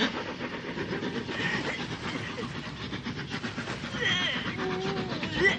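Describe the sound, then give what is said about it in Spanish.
A train approaches on a desert railway with a steady rumbling roar and rhythmic clattering of wheels. The sound holds fairly level throughout and swells slightly toward the end. “El tren se acerca.”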